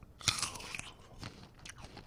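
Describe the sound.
A crisp bite into sour fruit, followed by a few softer, crunchy chewing sounds, faint and heard alone.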